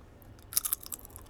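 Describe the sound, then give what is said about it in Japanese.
Faint, brief crisp crunches of Chip Star potato chips being eaten close to a microphone, a few quick sharp snaps clustered together over a quiet background. “なんか、ね、あのチップスターがすげえちっちゃい音になってるね。”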